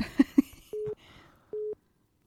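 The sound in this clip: Telephone ringing tone on a call: two steady, single-pitched beeps, each about a third of a second long and separated by a short gap, following a couple of brief soft sounds at the start.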